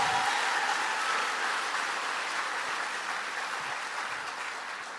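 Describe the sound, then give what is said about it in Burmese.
Audience applause offered in praise, a dense, steady wash of many hands clapping together that stays even throughout and tapers slightly toward the end. “လက်ခုပ်တီးပြီးဖျားကိုချီးမွမ်းရအောင်”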